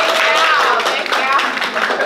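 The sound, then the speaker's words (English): Audience applause at a Mother's Day event: a dense, steady patter of many hands clapping for the full length, with a few voices mixed into the crowd noise. “Can we give her a round of applause, guys?”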